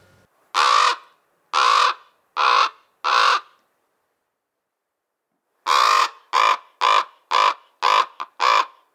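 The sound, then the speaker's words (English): American crow caws followed by common raven croaks: four harsh, evenly spaced calls, a pause of about two seconds, then a quicker series of several more loud calls, with no talk. “The first was the caw of the American crow, and the second was the croak of the common raven.”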